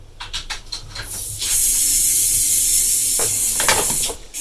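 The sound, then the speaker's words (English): A wire-running snake robot made of short plastic segments lets out a few quick mechanical clicks, then a steady high hiss as one segment extends, with light ticks near the end. “That is the sound of that robot. It's called the FlexBot. Picture a snake made of short plastic segments. And what you're hearing is the sound of one of those segments getting longer.”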